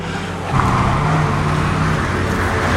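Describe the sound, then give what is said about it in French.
Low vehicle engine rumble as a car, followed by several police vehicles, pulls up in front of a house. The drone is loud and continuous from start to end. “Une voiture, suivie de plusieurs véhicules de police, se gare devant la maison.”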